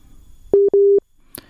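A telephone busy signal sounds as two steady low-pitched beeps in quick succession, the second one longer, followed by a brief faint click.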